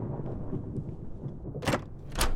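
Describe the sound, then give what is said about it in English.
A thunderstorm rumbles low and quietly, broken by two sharper, noisy bursts near the end. “It's only a storm, says Tomek's mum, Asha”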